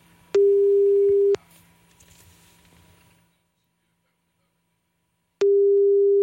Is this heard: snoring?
no